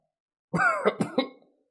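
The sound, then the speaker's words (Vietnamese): Violent dry coughing from a thin, gaunt old man: a rasping voiced onset followed by three short, harsh cough bursts in quick succession. “Thân ảnh khô gầy kia ho khan kịch liệt”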